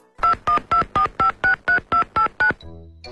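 Touch-tone beeps of a mobile phone number being dialed: ten short, evenly spaced tones in a quick steady run, loud and clean, then a faint brief tail of noise.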